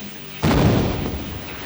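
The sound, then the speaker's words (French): A ship's cannon fires at a sea monster: one sudden, deep boom that hits hard and then slowly fades under a rumbling tail. “Le commandant décide alors de braquer le canon sur l'animal.”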